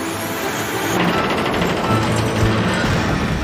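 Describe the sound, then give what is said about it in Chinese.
A winch starts up while lowering a cement block. It makes a steady mechanical whirring and rattling that holds at an even, moderate loudness throughout, with no voices. “绞盘启动。”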